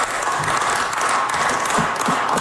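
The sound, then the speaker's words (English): Tired clapping from members in the Manitoba Legislature chamber during an all-night budget bill debate: a steady layer of clapping with some hollow, desk-like taps picking out in the second half. “Some tired claps there. They're all sitting in the chamber debating the government's budget implementation bill.”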